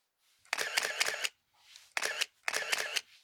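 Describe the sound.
Camera shutter taking photos: quick bursts of crisp mechanical clicking, one burst after another, with a softer, briefer sound in between and short silences separating the groups.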